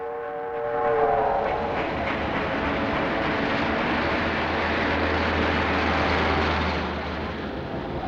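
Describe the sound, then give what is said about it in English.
A steam train crossing a viaduct begins with a brief whistle that fades into a loud, steady rumble and rattle lasting throughout, with a low droning hum joining partway through. “A steam train crosses on a viaduct.”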